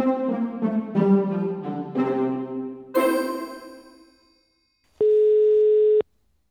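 A single steady ringback tone from an outgoing telephone call sounds for about a second. It follows a few decaying, chime-like melodic notes.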